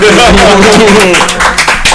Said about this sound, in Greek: Χτυπάτε παλαμάκια, παιδιά.